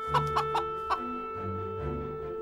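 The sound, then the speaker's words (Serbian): A laying hen clucks four short, bright times in quick succession, then makes lower, softer, drawn-out murmurs, all over a steady sustained background tone. “Koka nosilja.”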